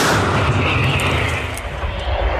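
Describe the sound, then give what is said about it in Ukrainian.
Artillery fire from a self-propelled gun battery: a loud, sustained booming roar that fills the whole clip and fades only slightly toward the end, with no voices. “Постріл!”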